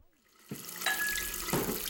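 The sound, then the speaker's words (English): Tap water runs for hand washing, starting abruptly and then holding a steady, bright splashing hiss. “you're not washing your hands again, are you, dear?”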